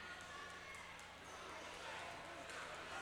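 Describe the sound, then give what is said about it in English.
A basketball is dribbled on a gym floor during a high school boys basketball game, with faint, scattered bounces under crowd noise and people talking. “He dribbles out the rest of the clock.”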